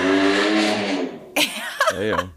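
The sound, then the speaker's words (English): Motorcycle peeling away: a steady, droning engine note that holds for about a second and then tapers off, followed by a person speaking briefly. “That's the sound of Michael's motorcycle peeling away.”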